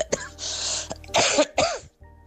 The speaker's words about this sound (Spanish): Perdonad por la tos, ¿vale?